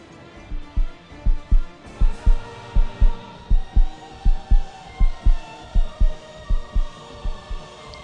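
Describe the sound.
A heartbeat thumps steadily, with many low, regular throbbing pulses repeating at an even pace under a continuous droning hum.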